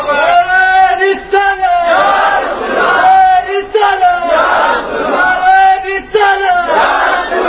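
A crowd at a religious gathering chants a religious slogan, loud shouted phrases in unison repeated in a steady rhythm with short gaps between each burst.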